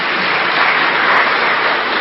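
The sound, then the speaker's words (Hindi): An audience applauds together, a continuous, even wash of muffled clapping that holds steady for the whole clip without voices. “तो मधुबन वालों के लिए ताली बजाओ सब।”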